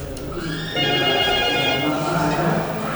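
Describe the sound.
A telephone rings for an incoming call on a call-in line. A steady, tonal ring starts after a brief moment and holds at an even level through to the end.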